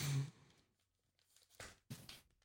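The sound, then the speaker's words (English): Foil Pokémon card pack from a Shining Fates Elite Trainer Box being torn open: a few short, faint crinkly rips, a brief one at the start, then two more close together near the end. “I'm opening up a packet.”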